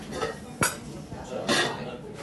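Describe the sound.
Dishes clinking as a wagyu main course is served at a restaurant table: two distinct, soft clinks of plates and cutlery over a quiet background, with faint voices nearby.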